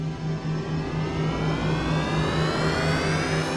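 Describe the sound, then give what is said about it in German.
The spaceship Relaxina lifts off into space as a steady, loud roaring drone. A pulsing low hum runs beneath it, and whining tones slowly climb in pitch throughout. “Die Relaxina hebt ab und wird in den Weltraum getrieben.”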